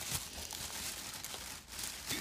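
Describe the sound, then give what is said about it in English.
Crinkling and rustling of a knotted plastic grocery bag being untied in a kitchen, a steady, busy crackle with no voices. “So I'm going to untie this bag.”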